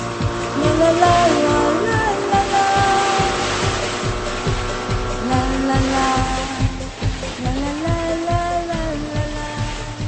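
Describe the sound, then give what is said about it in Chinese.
A jet ski engine drones loudly and continuously, with its pitch surging upward twice as the throttle opens, over a background of rushing noise. “由于约我到沙滩见面的人还没有出现，所以我决定先玩一下水上摩托。”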